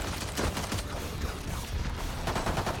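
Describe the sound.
Gunfire in a tactical shooter video game: loud, dense, rapid shots that run without a break, a steady wall of crackling bursts with no clear talking.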